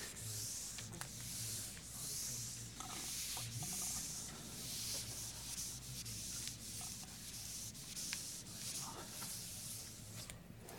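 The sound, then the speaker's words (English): An eraser rubs writing off a board in steady, faint scrubbing strokes that run continuously with small irregular pulses. “Okay? I'm going to erase this.”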